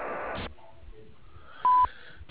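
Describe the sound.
An answering machine beep sounds before a message is recorded: one short, loud, steady tone over a narrow, phone-line hiss.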